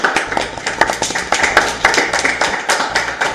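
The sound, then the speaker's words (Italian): Audience applause at an evening dinner gathering: dense clapping from many hands, sustained at an even, lively loudness from start to finish. “Un applauso a questa iniziativa.”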